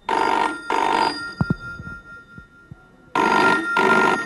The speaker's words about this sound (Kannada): ಇದು guarantee ಅವಂಡದೆ phone.